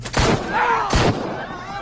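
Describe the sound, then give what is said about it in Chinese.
Two gunshots as soldiers open fire in a dramatized wartime scene, sharp loud cracks about three-quarters of a second apart, with a noisy ringing tail between and after them. “开枪！开枪！”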